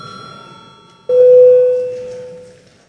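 A parliament chamber bell rings to call members to register for a quorum: a single clear electronic tone starts suddenly, holds at a steady pitch, then slowly fades after quiet background hiss.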